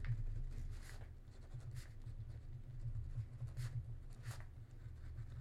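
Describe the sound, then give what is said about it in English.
A pen writes in a notebook, producing faint, quick scratchy strokes in short bursts with pauses between, over a low steady hum. “Here, I'm writing in my notebook.”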